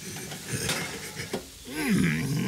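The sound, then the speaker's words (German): A baking tray of cookies is pulled from an oven with a metallic clatter of tray and pans. Several knocks and scrapes come in the first half, then a steadier, fuller rattle follows. “Jetzt hol die Kekse aus dem Ofen.”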